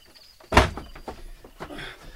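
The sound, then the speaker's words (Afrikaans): A door is shut with one sharp, solid thud, followed by a few softer knocks and faint rattles as it settles. “Maak toe daai deur.”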